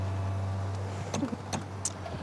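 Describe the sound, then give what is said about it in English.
People getting out of a car: a steady low hum stops, then a few sharp clicks and knocks from doors and movement follow. “They get out of the car.”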